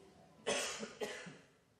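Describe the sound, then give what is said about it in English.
Two short, faint coughs from one person, a little apart, with no talking around them. “I need to cough, sorry.”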